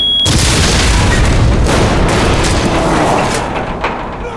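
Booby-trapped briefcase exploding at a gate, heard as a sudden loud, broad blast that keeps rumbling for several seconds before slowly fading.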